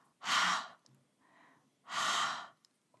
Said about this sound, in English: We make a breath sound in our throat. Bring up air through your throat and out of your mouth.